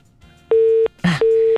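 Telephone busy tone after a call is cut off: two steady mid-pitched beeps of equal length, separated by a short crackling burst, loud and clear.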